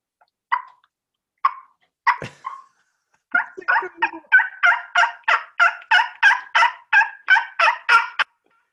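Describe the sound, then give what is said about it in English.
A voice imitates a turkey call: a few separate yelping notes, then a long, rapid, evenly paced run of many sharp, throaty yelps that ends abruptly. “So here we go. We're going to go to turkey call.”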